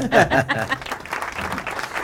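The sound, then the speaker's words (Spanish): Applause from an audience, a short burst of clapping that starts louder and settles into a steady patter, with voices over it at the start. “Ahí está el aplauso.”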